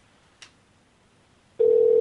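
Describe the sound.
A telephone being dialed to call someone back: a single short click, then after a pause a loud, steady, single-pitched line tone that continues to the end.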